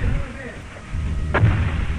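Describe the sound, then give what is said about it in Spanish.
82 mm mortar fire heard from a descending aircraft: one sharp, dull boom cuts through a steady low rumble, with faint talk in the background. “sí, son disparos de morteros. Según me dice aquí el piloto, son morteros de 82 milímetros.”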